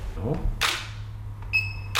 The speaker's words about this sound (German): Mit lockeren Sprüchen heitert er die junge Kundschaft auf, beugt sich nach vorn und nach hinten, knipst mehrere Aufnahmen.